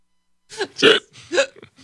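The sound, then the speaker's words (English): A person hiccups a few times in quick succession. The hiccups are short, throaty, voiced jolts of uneven loudness, the second the strongest, with silence before them and no speech. “Now I have the hiccups.”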